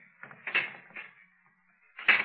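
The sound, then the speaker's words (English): A secret door beneath a king's palace creaking open, a few rough, scraping creaks in short bursts with a quiet gap before a last louder creak. “I'll go through that secret door.”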